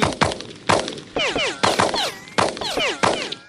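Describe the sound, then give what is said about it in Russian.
Police rifles fire a rapid, irregular series of sharp, loud gunshot cracks, several trailed by whistling bullets that sweep downward in pitch, overlapping into a dense, chaotic fusillade with no voices. “Послышались выстрелы. Вокруг засвистали пули.”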